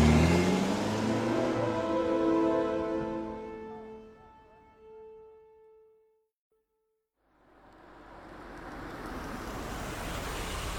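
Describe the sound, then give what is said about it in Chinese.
A Porsche sports car's engine revs loudly, then its tone thins and fades away to brief silence. A rising rush of road noise follows. “值得庆幸的是，小种开来了爱车保时捷。 喂，要是超速被抓，罚款可要你付啊。 说完，小种立刻发动。”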